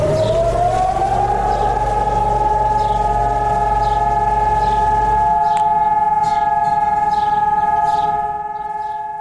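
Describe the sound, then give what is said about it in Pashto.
Memorial alarm siren wailing in Jerusalem as traffic stops for remembrance: a loud, sustained tone that climbs briefly at the start and then holds steady. A low rumble beneath it drops away midway, and the siren softens near the end. “پرون په بیت المقدس کې په دې مناسبت ځانګړي الارم لغږولو سره په یو وخت کې موټرونه پر سړکونو ودرېدل، خلک ترې راښکته شول او د درناوي لپاره د 2 دقیقو لپاره چوپ پاتې شول.”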